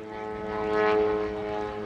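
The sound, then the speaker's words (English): Aerobatic propeller aircraft flying over the desert of Avra Valley during an aerobatic competition, a steady droning engine hum that swells in the middle and then eases slightly, with no voices. “The skies over the desert in Avra Valley are full of aerobatic aircraft as the best in the world are in Tucson for the next few days to compete in what is known as the Desert Shootout.”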